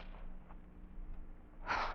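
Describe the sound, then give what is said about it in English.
A single deep, sharp gasp as a fainted woman is revived with smelling salts in bed, breaking in near the end over a low, steady hum and faint rustling. “here are the smelling salts. Breathe deeply, darling.”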